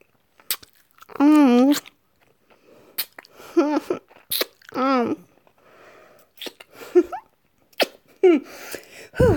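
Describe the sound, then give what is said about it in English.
A messy, wet kiss with several short smacking sounds mixed with muffled, voiced humming noises that come in bursts with brief pauses between them. “Are you ready? Our first kiss. I am so excited. Okay. Here we go.”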